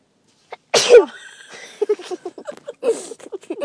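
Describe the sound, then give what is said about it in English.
One sharp, loud sneeze bursts out, and voices talking follow straight after it. “Oh, bless you.”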